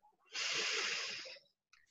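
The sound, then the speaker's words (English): A single deep, long breath during a guided breathing exercise: one steady, loud rush of air lasting about a second, heard alone, followed by a faint brief sound near the end. “And just breathe with me.”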